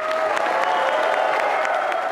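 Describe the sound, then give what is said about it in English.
Applause fills the Arkansas House chamber at the state capitol as the crowd welcomes Governor Asa Hutchinson at his inauguration: dense, steady clapping at an even, loud level with no pauses. “Asa Hutchinson was welcomed into the House chamber by nearly 2 minutes of applause”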